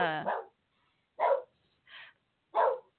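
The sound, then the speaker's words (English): A dog barks four times, each a short, sharp bark separated by brief silences. The barks are moderately loud and come alone, with no other sound between them. “my dog is barking because there's someone driving away.”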